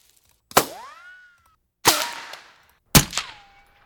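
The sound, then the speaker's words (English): Three unprocessed ricochets from a sound-effects library, each a sharp crack followed by a ringing, whistling whine that trails off, spaced apart with near silence between them. “the ricochets before processing sound like this.”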